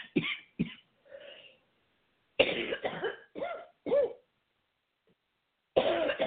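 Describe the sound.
Coughing and throat clearing from one person, many short raspy bursts in uneven clusters with brief silent gaps between them, fairly faint.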